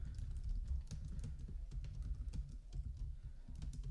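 Rapid clicking on a computer keyboard: many sharp, irregular keystrokes follow one another steadily over a low background hum, with no voices.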